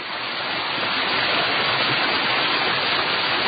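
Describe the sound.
The Đetinja river flows at the Podgradje hydroelectric plant in a dense, unbroken roar of rushing water that swells slightly in the first half second and then stays loud and constant.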